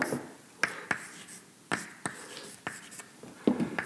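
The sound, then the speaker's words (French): Handwriting of equations on horizontal force balance and membrane tension during a physics lecture: many sharp taps and short scratchy strokes in an irregular rhythm, faint against a quiet background. “Il faut que je projette la tension sur l'axe horizontal aussi, hein, parce que ce que je suis en train d'écrire, c'est l'équilibre des forces horizontales.”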